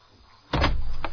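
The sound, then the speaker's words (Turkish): A door being locked several times gives an abrupt, loud mechanical rattle and clatter of the lock that starts suddenly and holds to the end, with a second sharper burst near the close. No voices are heard. “Fransin tedbirini almış. Baksana kapıyı kaç kere kilitledi.”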